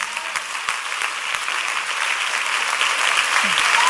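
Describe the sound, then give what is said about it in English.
A church audience claps during a worship service, producing a dense, steady wash of applause that holds at an even loudness throughout. “clap for Jesus”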